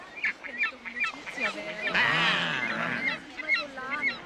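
Seagull squawks, repeated short nasal honking calls with a louder, drawn-out harsh cry in the middle.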